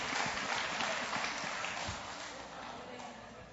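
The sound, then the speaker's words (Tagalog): A church audience applauds, giving a sustained wash of clapping from many people that fades slightly toward the end. “Amen ba? Amen. Palakpakan natin ang Lord.”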